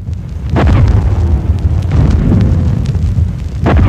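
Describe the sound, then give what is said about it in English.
Archive recording of an artillery barrage at El Alamein: a loud, continuous low rumble of explosions with a few sharper bursts rising above it, and no voices. “Montgomery's preparations for El Alamein were thorough, and as you can hear from this archive recording, the violence of the artillery barrage was devastating.”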